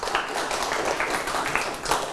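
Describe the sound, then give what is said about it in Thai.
Hands clapping in a dense, continuous patter of rapid claps that is fairly faint and steady, with no clear breaks. “ปรบมือให้ตนเองเก่งมาก”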